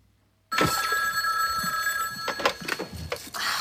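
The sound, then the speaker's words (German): A telephone rings in a hotel room: after a brief silence, a steady bright electronic ringing begins and carries on without a break to the end, with a few soft knocks and rustles underneath. “im Hotel, wo die Band abgestiegen ist, und im Zimmer das Telefon läutet”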